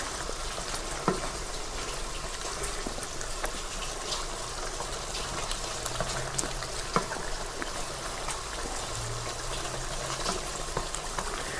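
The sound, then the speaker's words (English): A pan boils on the stove while being stirred, giving a steady, soft bubbling hiss with faint crackle. Occasional light knocks come through over the continuous simmer. “give the pan a bit of a stir so that we don't boil anything over”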